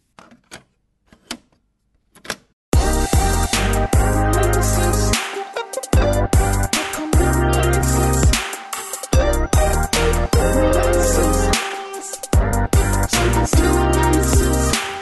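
A jingle played at the press of a button cuts in after a few faint clicks, loud and rhythmic, with punchy low beats and bright clattering hits repeating in a steady pattern to the end.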